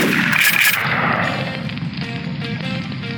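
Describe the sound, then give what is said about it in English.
A gas gun fires in a loud, harsh burst that fades away within about a second, followed by quieter tonal sounds. “Gas gun.”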